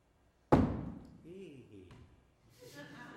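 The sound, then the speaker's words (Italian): A sharp axe strikes a single heavy blow, a sudden loud thud that quickly decays, followed by quieter voices talking. “La mia scura è affilata, non mi sembra la più indicata delle levatrici. Tu pensa solo a calare il colpo come si deve, del resto mi occupo io.”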